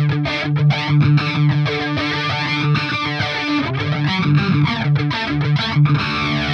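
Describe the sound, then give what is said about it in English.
Distorted electric guitar run through a flanger effect, its sweeping, whooshing comb-filter swirl moving across a continuous, busy lead line played alone without talk. “So that nice little flanger action.”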